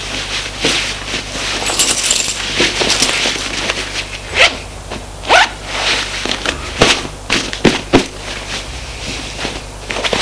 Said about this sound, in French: il se choisit des chemises, des sous-vêtements. Et s'habille.